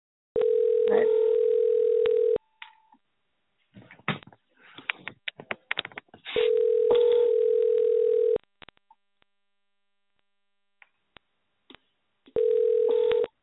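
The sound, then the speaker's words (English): Telephone dial-in tones: three long, steady electronic tones of about two seconds each, separated by gaps of clicks and brief crackling bursts on the line. “All right, you're going to hear the dial in, so bear with us.”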